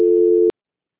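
A telephone line tone during a call transfer: one steady, mid-pitched beep that holds for about half a second, then cuts off abruptly into silence.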